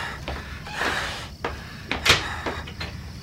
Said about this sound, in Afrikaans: In die ingeboude kas. Maak die laaste deur oop.